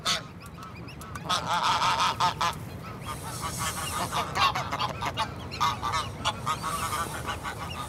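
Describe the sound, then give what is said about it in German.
A restless gander honks over and over in harsh, nasal bursts that come in clusters, with softer fowl calls and rustling in between, all fairly quiet. “Der Ganter wird unruhig.”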